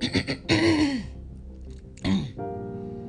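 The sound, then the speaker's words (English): A man clears his throat in a few gruff, voiced rasps and rumbling hums, with gaps between them and no words spoken. “Her father cleared his throat.”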